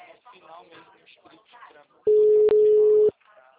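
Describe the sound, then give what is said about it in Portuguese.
A telephone disconnect tone follows a dropped call: a short burst of loud, steady electronic beeping that comes right after someone has been talking and cuts in sharply above the voice. “a ligação caiu.”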